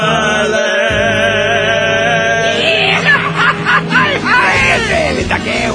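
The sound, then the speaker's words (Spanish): Mariachi-style grito shouted by a group: loud, overlapping whooping yells with wavering pitch break in over sustained musical tones. “disculpe nuestro grito mariachi, lógicamente ante una profesional queda deslucido”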